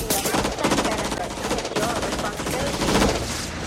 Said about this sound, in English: Well, they're all being shot.